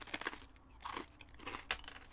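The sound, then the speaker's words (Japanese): Bites into a carbonated rice cracker give a few crisp, crackly crunches in an irregular sequence, quiet and close. “はい、炭酸せんべいね。 こうなりますね。じゃあ、僕、お先に一口いただきますよ。”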